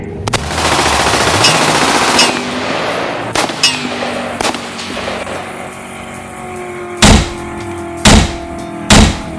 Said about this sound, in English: You've got angry gangsters shooting at me again